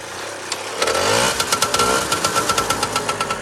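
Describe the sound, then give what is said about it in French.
A vintage French Mobylette moped engine starts with a quick rising whir. It settles into a rapid, even putt-putt idle of loud regular pulses, heard alone. “Et on va démarrer parce que c'est vrai que le bruit d'une mobilette, ça peut rendre des gens nostalgiques. On va faire ça ensemble.”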